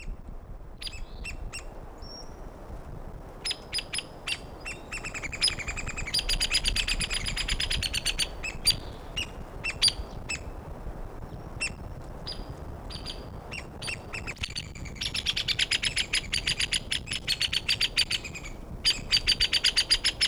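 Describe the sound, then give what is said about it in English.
Woodpecker pair calling near a probable nest site: the male gives loud, high-pitched notes and the female answers with lower-pitched ones. Sharp, repeated calls come in busy bursts over a faint background hiss. “woodpecker number one recorded near probable nest site. Males giving the loud notes, female nearby giving the low pitched notes.”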